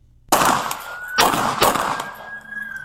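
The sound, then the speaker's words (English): Pistol gunshots ring out in a few loud, sharp bursts, fired repeatedly at a man near a car. Each crack leaves a ringing tail between the reports. “Well, he's got to go back to the pistol range. He ain't dropped. Now he just did 17 shots.”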